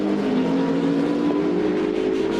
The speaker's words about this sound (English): Brave racing between the two, and the Ferrari is ahead.